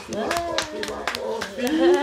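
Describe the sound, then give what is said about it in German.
Family members clap for a singing toddler under two years old in a small flat outside Nairobi: a few sharp hand claps are scattered among voices. “Der Kleinste, noch nicht 2 Jahre alt, singt und bekommt dafür Applaus.”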